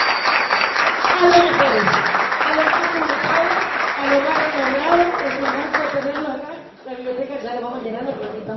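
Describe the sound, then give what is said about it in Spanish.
Loud, sustained applause from an audience at a school event honoring a coordinator, a dense, steady clatter that fills the whole stretch with a voice over it, thinning briefly near the end before picking up again. “yo le pido un fuerte aplauso a la señora Juanita Freitas.”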